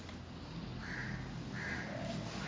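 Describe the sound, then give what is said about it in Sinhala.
Crow cawing: faint, drawn-out calls, about three, spaced apart over a steady background hiss. “කාක්කා කෑ ගහන.”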